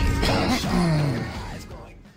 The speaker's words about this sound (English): Excellent coughing intro.